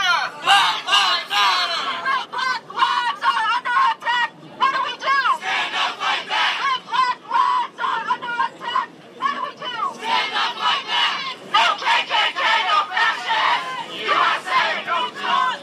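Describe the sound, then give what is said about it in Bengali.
Protesters outside the Republican convention chant slogans together, many voices rising in loud rhythmic bursts separated by brief pauses and keeping up a steady repeated cadence. “ওদিকে সম্মেলন কেন্দ্রের বাইরে dump Trump, black lives matter সহ নানা ধরনের স্লোগানে মুখরিত করে বিক্ষোভকারীরা।”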